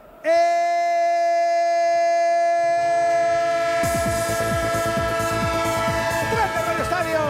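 A train horn sounds loudly as one sustained, steady chord through the whole recording, and a busier rattling, clattering texture joins it in the second half.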